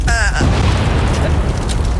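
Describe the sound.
A volcano eruption effect: a dense, continuous roaring rumble at steady loudness, with a brief voice at the very start.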